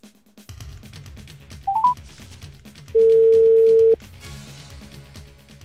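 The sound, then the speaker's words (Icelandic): A telephone call being dialed: a few quick key-press beeps, then a steady tone lasting about a second, over a low rumbling background. “Það er nú þannig að þá ætla ég að ringja í”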